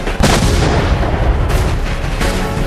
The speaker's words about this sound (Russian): Лови гранату, урод! Получай гранату!